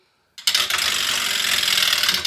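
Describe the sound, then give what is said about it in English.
A prize wheel, spun hard by hand, starts abruptly and then whirs with a dense, steady stream of rapid clicks that continues to the end. “So let me give this spin. I've been lifting weights, working out. So let's see if I can spin the wheel really hard here.”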